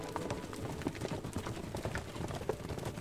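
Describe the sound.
Horses' hooves clip-clop along a road in a rapid, slightly uneven stream of many faint knocking beats with no break.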